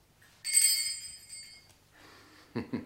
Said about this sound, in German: Man klingelt und dann ereignet sich was.